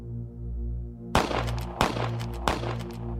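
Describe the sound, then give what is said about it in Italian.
Three sharp pistol shots crack out at an even pace, each a short loud burst over a steady low droning background. “Tre uomini armati di pistole iniziarono a sparare all'impazzata.”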